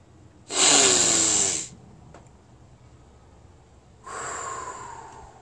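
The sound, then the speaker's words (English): Breathing in through a stuffy nose: a loud, harsh, snorting inhale lasting about a second, then a pause, then a softer, longer airy draw. “Breathe through your nose, regardless of how stuffy you are.”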